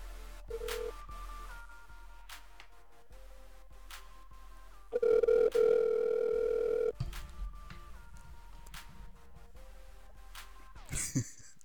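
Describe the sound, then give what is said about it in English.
A telephone call connects over a phone line through a series of faint line tones and clicks, then a loud steady ring tone for about two seconds, followed by quieter line noise and a short burst at the end. “Get him on the phone line right now.”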